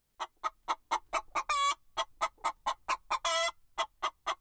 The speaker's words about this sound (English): The suspect was a rooster